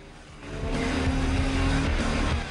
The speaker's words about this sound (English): Three Bikers Race Through the Desert.